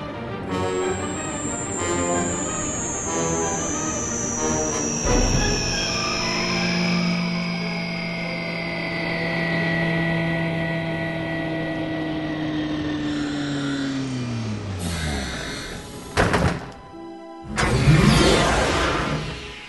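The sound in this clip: A spaceship flying toward a landing strip: a sustained engine whine of layered tones gliding slowly downward in pitch, closing with a short burst of noisy rushing and rattling.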